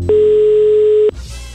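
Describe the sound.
A telephone dial tone sounds while a call is being placed: a steady single-pitched electronic tone that holds for about a second, then cuts off abruptly into faint noise.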